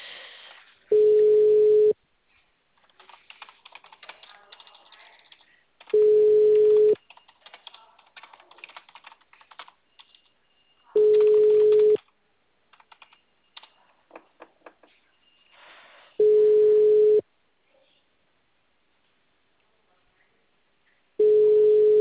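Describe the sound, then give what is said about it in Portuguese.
Phone ringing tone while a call connects: five steady mid-pitched tones, each about a second long, spaced roughly five seconds apart, with soft keyboard typing in the gaps. “Agora tá chamando. Enquanto chama, eu venho aqui.”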